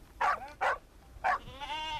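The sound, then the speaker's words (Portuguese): Sheep bleating in a flock of 300 being shorn six at a time: three short, loud, wavering bleats in quick succession, then a longer, fainter bleat trailing off. “Aos seis de cada vez, o rebanho de 300 animais de Alberto Sampaio liberta-se da lã.”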